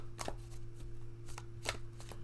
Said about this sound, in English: So I'm going to go ahead and pull a card, a crowning card for Joe Biden, and see what message do the angels, ancestors, and protectors have for him